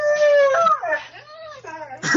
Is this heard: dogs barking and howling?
yes